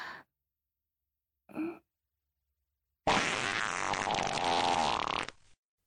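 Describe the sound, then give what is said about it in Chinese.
A flatulent fart from a gassy student during an exam: a short low puff comes first, followed by a long, loud, sputtering blast that holds for a couple of seconds before cutting off. “好臭，好臭啊！哎呀，好浓的臭味儿，是谁放屁了？”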